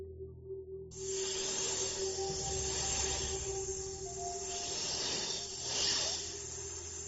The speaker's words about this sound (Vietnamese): Có người tới. Không đúng, hình như là con gì đó đang bò. À, mẹ ơi, rắn rắn rắn.